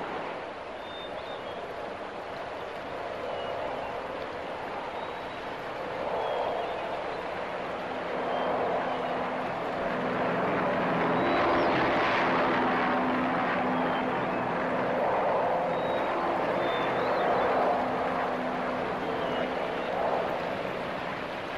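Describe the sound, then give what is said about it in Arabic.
An airplane's steady engine drone, a broad continuous roar that swells slightly toward the middle and then holds, with no talking. “هنالك شيء آخر أيضا. هذا صوت طائرة.”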